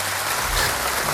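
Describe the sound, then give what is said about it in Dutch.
Recorded applause from a virtual audience on a radio show, a brief, dense and steady wash of clapping heard on its own without talk. “we hebben toch een applausje ervoor klaarstaan. Virtueel publiek.”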